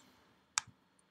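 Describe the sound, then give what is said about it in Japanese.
A single sharp computer mouse click, right-clicking to remove an item in Google Chrome, followed at once by a soft low thump; otherwise quiet. “この右クリックしていただくと、Chrome から削除というのがありますので、そちらをクリックしてください。”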